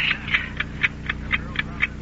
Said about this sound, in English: Cut that ticking. Oh, just that old clock of ours.